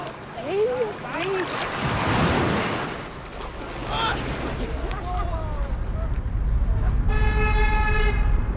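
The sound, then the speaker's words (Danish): Waves lap at a summer beach where people are bathing: a steady rushing wash with wind noise, scattered raised voices of bathers, and a sustained horn-like toot near the end. “Det her er sommer og sol. Folk, der bader, og bølger, der skvulper i strandkanten.”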